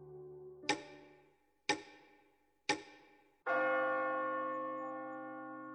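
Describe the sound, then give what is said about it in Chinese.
A grandfather clock strikes midnight: three sharp, evenly spaced chimes ring out, then a fourth, fuller strike sustains and slowly fades. “立式的大摆钟响了，午夜十二点钟。”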